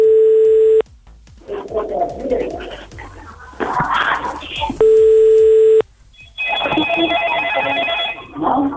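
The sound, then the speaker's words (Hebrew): A telephone call is placed: two long, steady ringing tones, separated by a stretch of muffled noise, then a longer, higher tone. “בואו ננסה שוב לחייג לאבא של שילת.”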